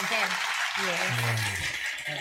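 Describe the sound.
Applause for a guest in a studio: a steady, dense wash of clapping runs throughout, under ongoing talk.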